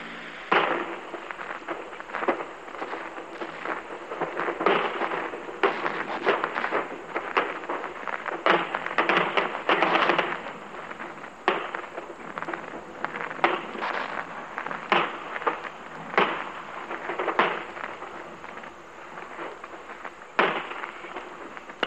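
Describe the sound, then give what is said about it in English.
An artillery barrage with 4.2-inch mortars firing across a cornfield, many sharp blasts and cracks in rapid irregular succession over a continuous rumbling roar, with no voices. “I can see many men taking shelter behind the banks wearing their steel helmets while this terrific barrage goes on around us. In this barrage, we've got our 4.2-inch mortars,”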